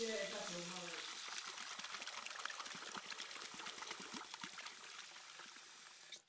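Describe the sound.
Water sloshes as a mouth is rinsed: a steady, splashy hiss with small crackles and gurgles that runs for several seconds. A brief voice is heard at the start, and the sound cuts off at the end.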